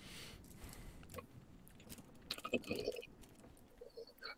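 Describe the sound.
Faint crunchy chewing of a chocolate candy bar with marshmallow, like a knockoff Snickers, with a few bites and mouth sounds that grow briefly louder midway.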